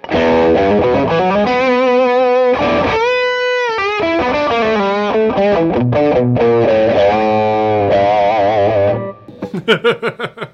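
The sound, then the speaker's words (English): Electric guitar on the bridge pickup, through stacked overdrive pedals (a Clarksdale plus a tube screamer) into a Port City Pearl amp. Thick, loud, distorted chords and sustained bends run for about nine seconds, then give way to several short choppy stabs. “Great sounding, on the verge of breakup, tube screamer. Right. So, and then when you stack them together, it's your favorite sound.”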